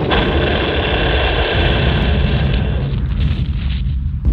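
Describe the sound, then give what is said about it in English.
A loud, sustained booming roar from an artillery gun firing at a 22nd Field Artillery battery in the Watchung Mountains, a steady wall of rumbling noise that barely fades over several seconds. “First, we take you to the battery of the 22nd Field Artillery, located in the Watchung Mountains. Fire!”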